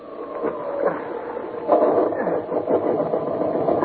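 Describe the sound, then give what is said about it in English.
A motor being started turns over into a rough, uneven mechanical drone. The running sound surges louder partway through and keeps going with a rattling, pulsing texture. “I'm going to make another attempt to get that motor working.”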